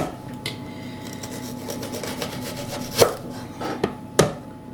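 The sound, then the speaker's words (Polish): A knife chops a peeled onion on a board, giving a few sharp knocks in the second half over soft rubbing and scraping. “Jeśli cała cebula jest właśnie taka mokra i prążkowana, znaczy, że udało się nam obrać całość. Dobrze, teraz sobie pokroję.”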